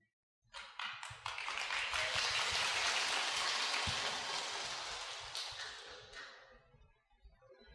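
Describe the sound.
Audience applause at a Buddhist chanting talk rises quickly after a moment of silence, holds as a dense, steady clatter of many hands, then thins and fades away toward the end.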